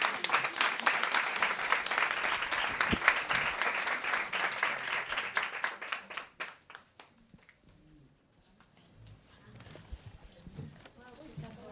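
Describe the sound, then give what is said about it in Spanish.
Audience applause at an evening event on feminism: dense, loud clapping for about six seconds that thins into scattered claps and dies away into quieter background noise. “Un aplausote para vos.”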